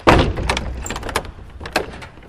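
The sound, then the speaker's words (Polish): A large wooden front door of a palace being opened at the main entrance, giving a few heavy clunks and scraping creaks of moderate loudness over a low rumbling background. “Otwieramy te wielkie drzwi i wchodzimy do holu”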